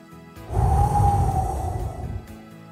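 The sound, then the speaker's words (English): A deep breath taken before a prayer: one long, airy breath lasting about two seconds, with a faint steady tone running through it. “Let's take a deep breath and have a prayer.”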